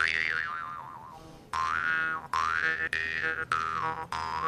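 Twanging of a blacksmith-made mouth harp played with the teeth on its frame. A long opening note is followed by a few shorter plucked notes, each with a buzzing drone and wavering, wah-like overtone sweeps.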